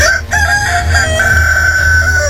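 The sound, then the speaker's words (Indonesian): A rooster crows loudly in one long, drawn-out call lasting over two seconds, harsh and strained. No voices are heard over it. “Baiklah, aku akan menghancurkannya dengan ayam jantan saktiku ini.”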